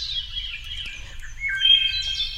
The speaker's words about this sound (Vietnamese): Con chim nhỏ sà xuống, đậu bên long sàng, ríu rít nói